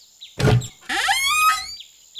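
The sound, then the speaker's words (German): A door opens: a short, noisy scrape or latch sound, then a long, tonal creak that rises in pitch and fades out. “Aber nein, die Tür geht auf.”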